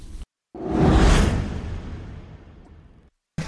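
A golf swing whoosh at a celebrity classic golf event: one broad rushing sweep that swells quickly and then fades slowly over about two and a half seconds, heard alone between short silences.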